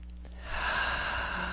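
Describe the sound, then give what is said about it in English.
A deep breath during a guided relaxation exercise: soft, airy breathing noise that swells after about half a second and holds steady and breathy to the end, with no talk. “Okay, nice deep breath.”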